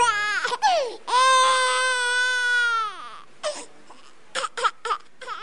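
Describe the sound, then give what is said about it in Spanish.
A young girl crying: one long, sustained high wail, then several shorter broken sobs and whimpers. “¿Qué es que hace llorar tanto esa niña, machona? No, pero papá, no sé qué tiene, por todo chilla.”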